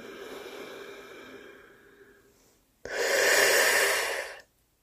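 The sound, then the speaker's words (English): Breathing in and out through a rolled tongue during a yogic breathing exercise: a softer, steady airy breath lasting about two and a half seconds, a brief pause, then a loud, bright hissing breath of over a second that stops abruptly. “Now roll your tongue and then breathe in and out.”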